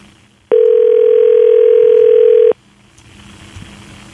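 Ringing tone of an outgoing telephone call: a single steady, even tone lasting about two seconds, starting and stopping abruptly, with only faint background noise around it.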